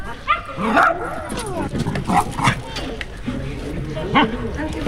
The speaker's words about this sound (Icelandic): Við kannski heilsum upp á hunda.